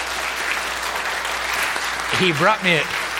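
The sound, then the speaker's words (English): Church audience applauding during a worship service to honor a member who became a U.S. citizen; steady, dense clapping fills the whole stretch, with a voice briefly rising over it near the end. “Round of applause,”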